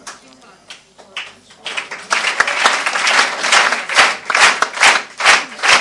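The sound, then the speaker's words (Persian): People clapping, starting with sparse scattered claps and building after about two seconds into steady, loud applause with sharp individual hand claps standing out. “متشکرم. بقیه هم دست بگیرید دیگه.”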